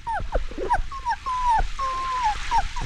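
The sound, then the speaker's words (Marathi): A soaked, shivering puppy whimpers outside in a run of thin, high whines, some drawn out and gently falling in pitch, loud and with no other sound. “बाहेर मावशी कुत्र्याचं पिल्लू”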